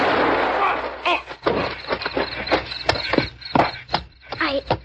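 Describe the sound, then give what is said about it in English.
A gunshot rings out during a tense confrontation, heard as loud, sharp bursts amid noisy clatter, with voices mixed in. “I didn't mean to shoot him.”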